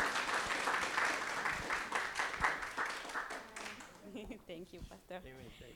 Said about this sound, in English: So let's give a warm Life Tree welcome, please, to Rocco and Diana as they come.